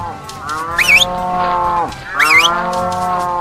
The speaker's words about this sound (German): Dann zeigt euch mal Kühe.